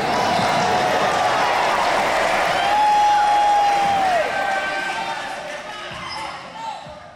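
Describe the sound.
A basketball bounces on a parquet court with a few dull thuds over a steady wash of crowd noise, with a high squeak partway through.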